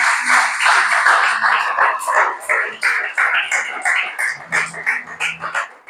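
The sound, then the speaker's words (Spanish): A church audience claps in praise with a regular, rhythmic beat of several claps per second, while voices carry over the clapping. “Gloria al Señor, dale ese aplauso al Señor.”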